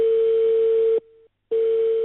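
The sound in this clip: A telephone dial tone sounds while a call is being placed: a steady, loud, continuous hum. It cuts out abruptly partway through, leaving a short quiet gap, then returns at the same steady pitch.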